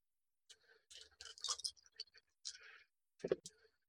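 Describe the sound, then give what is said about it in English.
Four dice are rolled, giving a few quick, faint clicking clatters in short bursts, with soft talk around them. “and roll some dice. We're looking at a 16 with four dice.”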